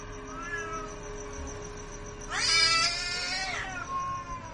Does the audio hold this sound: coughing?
no

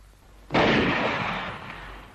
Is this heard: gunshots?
yes

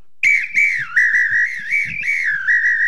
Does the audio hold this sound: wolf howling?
no

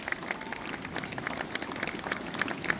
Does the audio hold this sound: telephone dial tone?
no

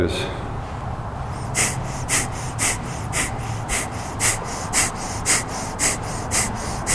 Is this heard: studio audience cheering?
no

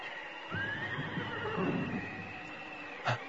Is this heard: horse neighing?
yes

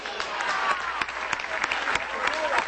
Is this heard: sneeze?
no

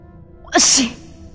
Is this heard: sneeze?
yes

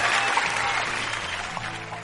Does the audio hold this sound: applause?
yes

